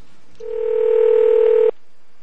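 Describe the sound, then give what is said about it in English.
A ringing tone sounds on a telephone call: one steady, pure beep lasting just over a second, alone against faint line hiss. “I didn't understand why the phone had to ring so much for you to pick up.”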